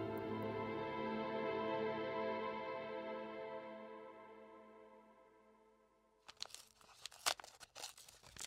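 A dirty paper envelope is torn open with a burst of crisp tearing, rustling and crinkling. It comes after a sustained musical drone fades out.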